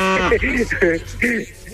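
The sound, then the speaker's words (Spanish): A person imitates a cow mooing, making a few short, voiced, tonal calls in a row that sound more like lowing than words. “A ver, ¿cómo le hacen las vacas? Es importante, men. Bueno, le estás haciendo como buey.”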